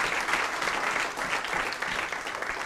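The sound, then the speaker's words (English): Applause from an audience for two people asked to stand up. Many hands make a thick, even wash of clapping that holds a steady loudness throughout, with no voices heard over it. “Stand up, Carla and Melanie. Come on, stand up. We're going to applaud them.”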